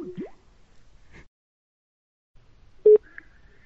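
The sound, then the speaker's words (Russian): A telephone number is dialed on a phone, giving a few short electronic beeps separated by silence, with one beep much louder than the rest. “сейчас на два звоню!”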